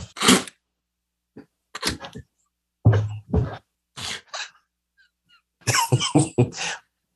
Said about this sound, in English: Excuse me, I'm snorting.